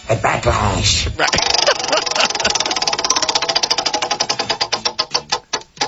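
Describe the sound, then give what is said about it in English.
Rapid clicking of a prize wheel spun during a sports talk segment, a brief voice at the start before the dense ticks take over and gradually slow, spacing out steadily until the last few clicks. “Go ahead, give the wheel a bit of a spin. Wheel of topics continues.”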